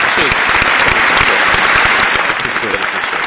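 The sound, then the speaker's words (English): Applause from an audience: dense, continuous clapping that holds loud and steady throughout, easing only slightly at the very end. “Round of applause”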